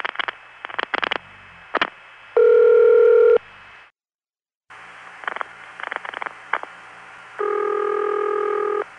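An NX1 telephone exchange connecting to a line sends a long run of sharp pulsing clicks and a steady ring-tone burst, then after a brief silence more clicks and a second ring burst.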